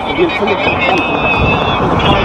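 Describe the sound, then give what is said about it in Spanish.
Road traffic heard from the roadside of a highway, a steady rushing drone of passing vehicles with wind buffeting the microphone. People talk over it. “Esto es la carretera, obviamente. ¿Qué auto sale, caballero?”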